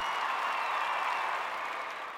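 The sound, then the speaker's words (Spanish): Steady applause, a standing ovation for a 42-year-old woman who has won her second world championship. Many hands make a soft, even patter that holds level and thins slightly toward the end. No one talks over it. “La verdad que tenemos muchos amigos de la casa, pero vamos a destacar y dar un aplauso.”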